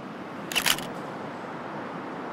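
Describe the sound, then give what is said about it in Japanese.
A single camera shutter clicks for a social-media photo, one quick double-edged snap over a faint, steady hiss. “そうだ最後に1枚 SNS 用の写真いい”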